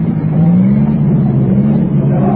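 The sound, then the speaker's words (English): Engines of vintage racing cars, including a supercharged six-cylinder car, an Alfa and an ERA, speeding past on a race track: a steady, loud droning roar whose pitch rises slightly, with no talk over it. “Now, there they come again, going like bombs. The other ammo car is still going strong.”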